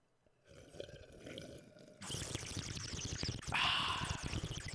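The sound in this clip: Water bubbling through a bong as it is hit, a steady rushing gurgle that starts quietly, swells into a loud continuous bubbling partway through, and keeps going to the end.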